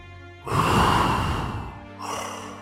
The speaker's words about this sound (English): just a deep breathing sound, slow and rhythmic